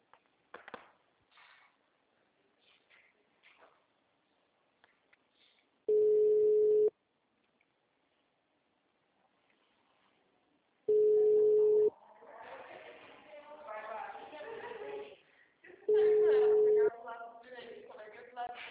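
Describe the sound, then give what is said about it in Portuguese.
Three long, steady, mid-pitched beeps from an automated phone system, each lasting about a second. They are separated by stretches of quieter talk. “Após o sinal, digite o ramal desejado ou aguarde.”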